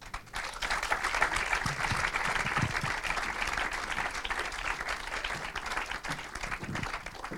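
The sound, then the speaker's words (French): Audience applause at a cinema event honoring comedy, a dense, even patter of many hands clapping that starts almost at once and holds steady throughout, with no voices on top. “Et vous pouvez l'applaudir.”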